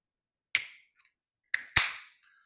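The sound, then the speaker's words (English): A beer can hopped with Simcoe and Idaho 7 cracked open, a few sharp pops each trailing off into a decaying fizzing hiss. “So let's crack this open right now.”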